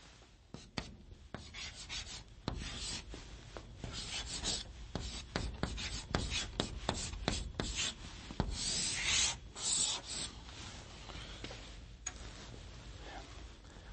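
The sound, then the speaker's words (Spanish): Writing on a blackboard, with many short scratching and tapping strokes in an irregular rhythm that come in bursts and pauses, moderately loud, with no voices. “La voy a escribir en la pizarra para que usted pueda conocerla.”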